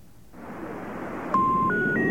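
Telephone keypad tones dial 511: three short, steady electronic beeps in quick succession over a faint line hiss, with no voices.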